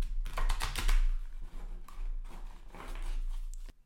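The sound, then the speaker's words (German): An oracle card deck is shuffled, giving a rapid, dense run of crisp papery clicks and flutters for a few seconds before stopping abruptly. “ich mische dann einmal die Karten.”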